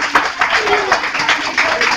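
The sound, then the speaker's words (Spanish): A live audience applauds a guest, a charro and tamborilero, with busy, uneven clapping that rises and dips throughout, while someone talks over it. “Le pido un aplauso a él, por favor.”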